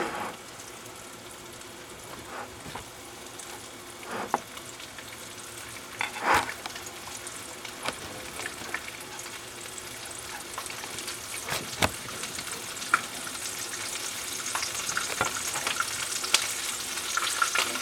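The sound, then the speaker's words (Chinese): Flour-coated chicken legs sizzle and crackle in hot oil over medium-high heat, a dense, steady hiss scattered with sharp pops and spits that grows slightly louder toward the end, with no talking. “那这个时候呢我们就可以把鸡腿放下去了。我听到那个噗呲噗呲的声音。”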